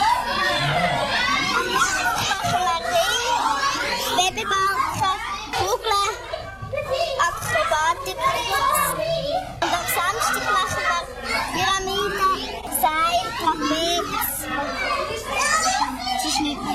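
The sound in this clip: Noisy group of children practising together at a children's circus: a continuous, loud mix of chattering, calling and shouting young voices with no pause throughout.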